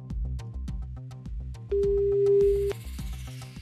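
A single steady telephone ringing tone on an outgoing call lasts about a second over rhythmic music with a repeating beat, with a brighter high wash near its end.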